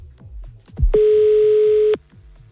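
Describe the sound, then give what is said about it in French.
Telephone tone on a call being placed to an event association's president, a loud steady single tone holding for about one second before cutting off cleanly, with faint low background sounds before and after. “Delincourt Animation et j'appelle Sandra la présidente.”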